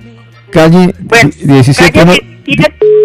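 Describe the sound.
A steady electronic telephone line tone from an incoming call placed from Cajibío sets in abruptly at the end and holds level, after a stretch of a man talking.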